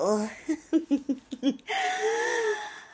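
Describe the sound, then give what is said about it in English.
A very deep, wheezy breath drawn out for over a second, preceded by a few short, laugh-like voiced bursts. “Oh, that's a very deep breath.”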